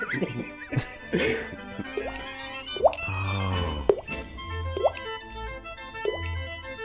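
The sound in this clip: A voice imitates dripping water, producing many quick pitched plops and bloops in an irregular rhythm, each a short bright blip sliding in pitch, with a faint hum underneath.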